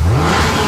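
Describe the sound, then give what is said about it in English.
A car engine revs in a brief, loud vroom. Its deep growl climbs in pitch at the start, then holds steady. “Can you hear that? That's not just horsepower.”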